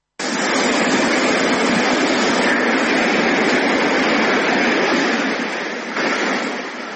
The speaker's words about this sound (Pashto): د دغه شار ساحلونه له خلکو تشتي او د سمندر څپې خاموشي